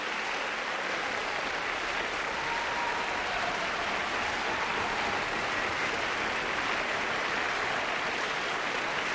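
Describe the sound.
An audience applauds conductor Eduardo Mata after an orchestral concert, calling him back for another bow. The clapping is dense and steady, a continuous even wash of many hands, moderately soft and without voices.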